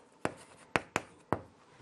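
Numbers are written by hand during a maths lesson on sequences: four sharp, quick pen strokes at uneven intervals against a quiet background.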